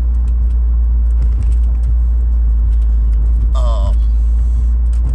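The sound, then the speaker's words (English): A loud car engine runs with a deep, constant rumble that stays steady and dominant throughout, with a few faint higher noises over it. “my car is a little loud right now”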